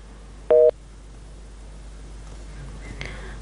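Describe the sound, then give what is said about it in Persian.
A single short electronic tone sounds on a telephone line when a caller's connection to a radio call-in show drops. Afterwards only a low hum and faint line noise remain. “متاسفانه تماس خاطره مبارز قطع شد”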